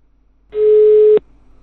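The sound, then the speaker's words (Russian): A telephone busy tone signals that the subscriber is unavailable. One loud, steady mid-pitched beep lasts about two-thirds of a second and cuts off abruptly over faint background hiss. “О, абонент недоступен, что за хуйня?”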